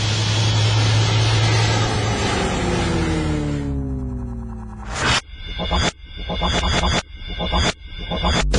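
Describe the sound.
An airplane takes off in a sound effect: a loud, broad engine roar with a whine that climbs in pitch over about four seconds, then breaks off into a different sound.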